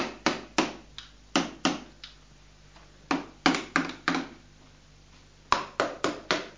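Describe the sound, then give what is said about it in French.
Tapping on a door overhead during a repair: many sharp, hard knocks come in quick bursts of several strikes, separated by short pauses. “C'est pour réparer la porte que tu tapes là au-dessus.”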